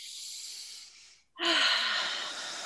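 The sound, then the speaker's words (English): A deep, airy inhale through the nose, then a brief pause and a louder, breathy exhale through the mouth. The breathing is heard alone with no other sound. “take a deep breath with me, and through your nose, out through your mouth”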